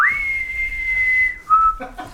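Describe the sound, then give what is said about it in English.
A penny whistle played during a tabletop role-playing game holds one long, steady, high note, then gives a short, lower note before falling quiet. “And I whip out my penny whistle. And I go,”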